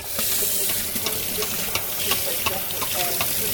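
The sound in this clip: Somali samosas frying in hot oil give a steady bubbling sizzle, dotted with many small crackles and pops throughout.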